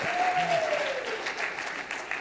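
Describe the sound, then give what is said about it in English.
An audience claps steadily: a dense wash of many hands at moderate loudness that holds throughout with only slight swells. “See, I get weird when you guys clap like that”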